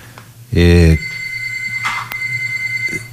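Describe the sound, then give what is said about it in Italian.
A telephone rings with one loud, buzzy electronic ring burst, followed by a fainter tonal hum under talking voices. “immagino che ci sia una telefonata.”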